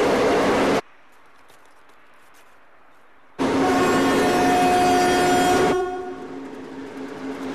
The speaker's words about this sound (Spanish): La botella de plástico está preparada en la vía. El tren se acerca.